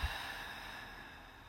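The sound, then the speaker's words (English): A long, soft exhale during a guided breathing exercise: a faint, breathy hiss that begins with a slight catch and thins out slowly over about a second and a half. “Take a deep breath. Exhale.”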